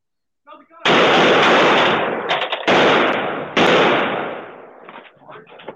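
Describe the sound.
Gunfire from a police officer in video footage: three loud, sharp blasts, each followed by a long ringing decay, with a voice heard briefly before and after.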